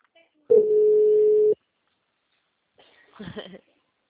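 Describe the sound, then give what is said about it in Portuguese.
A telephone line tone after a dropped call: one steady, mid-pitched beep lasting about a second, then silence and a brief, faint voice. “A ligação caiu, caiu, perdão. A linha de novo.”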